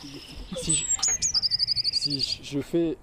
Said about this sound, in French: Ça, c'est la mésange bleue.